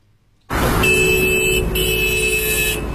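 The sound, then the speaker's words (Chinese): A black Hyundai sedan sounds its horn while crossing the Huangzhuang intersection beside Haidian Hospital in Beijing. A short, steady honk is followed at once by a longer one over a constant rumble of traffic. “一辆尾号为 R08 的黑色现代轿车一边鸣笛一边通过了海淀区海淀医院旁的黄庄路口”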